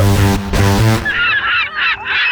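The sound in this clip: Seagull calls, a few harsh, high-pitched squawking cries, come loudly after a brief low, buzzy tone.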